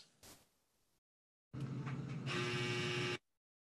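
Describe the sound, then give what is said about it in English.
A clothes dryer buzzer signals the end of its cycle with a harsh, steady electronic buzz lasting about a second and a half. A brief burst of noise and a moment of silence come before it. “oh, that was the halftime buzzer. No, I'm just joking. Dryer's done.”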